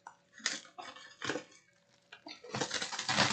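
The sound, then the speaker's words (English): Shrink wrap on a boxed game set is sliced open. Crisp, crinkly plastic crackles and rustles come in several short bursts, then a denser run of crackling at the end. “It's in shrink wrap, so just be aware, I'm gonna slice open the shrink wrap here.”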